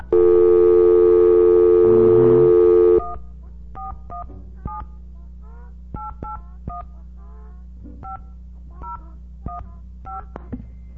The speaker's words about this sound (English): Oh, wait a second. We've got to dial 9 first.